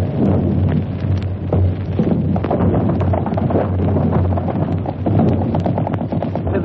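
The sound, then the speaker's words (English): Shells from a 75mm gun land near a frontline weapon pit: dense, loud, rumbling blasts and crackling bursts pile on one another continuously, with no pause across the stretch. “Yes, it's 75mm gun. They're landing around here now.”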